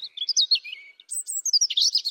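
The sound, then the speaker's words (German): A European robin sings its aggressive territorial song: high, thin, warbling phrases of quick chirps and trills, two bursts split by a short pause. “Für Vögel ist Kampfgesang. Also Rotkehlchen sind ja mit die aggressivsten Kleinvögel, die es überhaupt gibt.”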